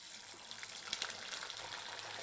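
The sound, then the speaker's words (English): Potato French fries sizzle in regular vegetable oil during a slow first frying stage, a steady, faint hissing fizz with small scattered crackles throughout and no talking. “I'm just using the spatula to help me ease the potatoes into the oil. That way I don't splash myself. I'm just using regular old vegetable oil.”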